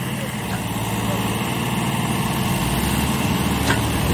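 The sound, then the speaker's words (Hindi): Tractor engine running as it reverses a loaded trolley in back gear, losing its direction on wet ground; a steady, loud, low diesel drone holds throughout without a clear change in pitch. “दोबारा से फिर back gear में trolley को चलाते हुए tractor जो है दिशा भूल रहे हैं अपनी गिल्ले की वजह से।”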